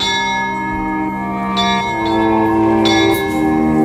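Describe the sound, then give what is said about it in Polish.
Small bells ringing in the Wawel castle courtyard, a loud, dense wash of sustained, overlapping metallic tones with a few fresh strikes standing out as the ringing continues, no voices. “W dole, na wawelskim dziedzińcu, odezwały się dzwonki.”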